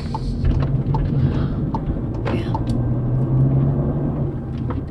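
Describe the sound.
A car drives through familiar residential neighborhoods, its engine and tyres producing a steady, unbroken low rumble that stays even in loudness throughout, with no talk.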